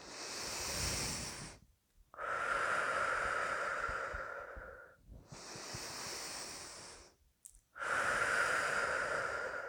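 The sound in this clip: Deep, slow breathing in and out during a guided energy exercise with fingers resting on a body point. Four long, airy breaths alternate inhale and exhale with brief pauses between them, and no voices are heard.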